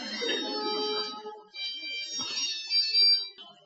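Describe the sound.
A phone rings persistently with a bright, tonal electronic ringtone that repeats its melodic pattern through the whole clip. There is a brief break partway through, and it sounds moderately loud with no voices over it.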